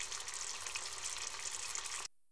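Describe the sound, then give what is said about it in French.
Beaten eggs frying in butter in a pan give a steady, bright sizzling hiss with fine crackle, then cut off abruptly just before the end. “Je mets un peu de beurre dans la poêle. Je verse les œufs battus.”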